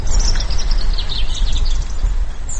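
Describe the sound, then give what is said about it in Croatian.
Birds chirping in the Hutovo blato wetland nature park near Čapljina: faint, high chirps scattered throughout, over a loud, constant rumble of outdoor noise. “Cvrkut ptica i brujanje života u parku prirode Hutovo blato kod Čapljine”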